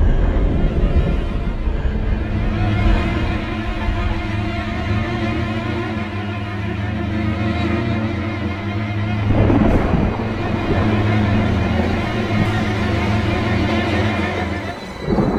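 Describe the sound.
A thunderstorm at night brings steady heavy rain and deep rolling thunder that stays loud throughout. Stronger surges of rumble build partway through and again near the end.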